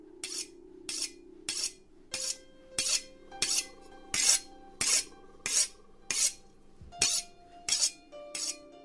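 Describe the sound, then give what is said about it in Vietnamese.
Rasping scrapes of a knife blade drawn across a stone in the corner of a hut, repeated in many regular, evenly spaced strokes with a bright, gritty edge over a faint sustained tonal background. “tên kia nghiến răng nghiến lợi, lướt con dao qua cái cục đá cây ở góc chòi.”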